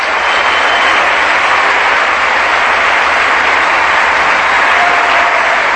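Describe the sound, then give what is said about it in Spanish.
Applause from a church audience during a sermon, offered as praise to the Lord: a continuous, even wash of clapping that holds at a steady, fairly loud level from start to finish, with no clear breaks. “Aplauso para el Señor.”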